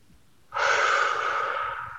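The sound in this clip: One deep breath: a loud, airy rush starts abruptly after a short quiet, holds steady and slowly tapers over about a second and a half.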